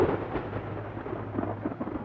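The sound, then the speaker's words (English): Low rolling thunder of a storm building in the rain, a continuous deep rumble with a few swells and no voices. “A storm was brewing.”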